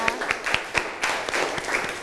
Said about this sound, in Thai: ปรบมือให้เพื่อนกลุ่มที่1นะคะ